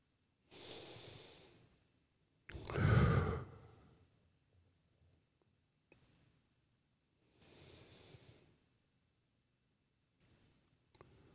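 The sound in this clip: Slow, deep breathing during a guided breathing moment: a few long, airy inhales and exhales separated by quiet pauses, one exhale noticeably fuller and louder, with faint clicks in between.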